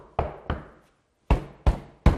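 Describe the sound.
Knocking on a door: two sharp knocks, a pause, then three more firm knocks in a steady rhythm, each a hollow thud with a quick decay, heard alone.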